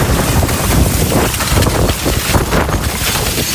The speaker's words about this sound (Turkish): Toz fırtınasının yaşandığı Başakşehir, Esenyurt, Arnavutköy, Küçükçekmece, Avcılar, Büyükçekmece olumsuz hava durumundan en çok etkilenen ilçelerden oldu.